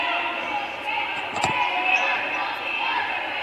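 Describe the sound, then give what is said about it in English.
Basketball dribbled on an indoor court during a college game, with a few dull bounces rising briefly above steady crowd noise. “dribbling left to right across the floor.”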